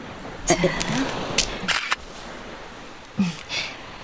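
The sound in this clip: Camera shutter clicks as someone with cold hands photographs the sun; a few sharp, brief mechanical clicks close together, with people talking around them.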